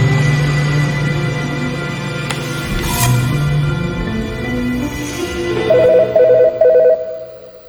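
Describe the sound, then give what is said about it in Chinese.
A telephone rings loudly with a tonal, melodic ringtone. Its sustained electronic notes change pitch step by step and end in a few repeated higher pulses. “就在我拿起折叠刀的那一刻，电话响了。”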